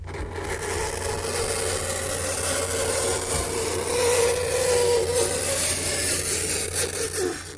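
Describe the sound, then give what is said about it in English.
Fingernails scraping across a blackboard make a continuous, harsh grating rasp that stays loud and unbroken for several seconds over a steady low hum. “This is the sound of nails on a blackboard.”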